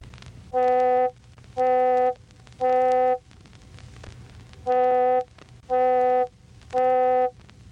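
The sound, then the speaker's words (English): An electronically generated middle C tone with its overtones around 500 and 800 cycles per second emphasised, giving a hollower, vowel-like steady buzz, sounded in six short bursts grouped three and three around a brief pause. “But if we emphasize the overtones in the region of 500 and 800 cycles per second, it sounds like this.”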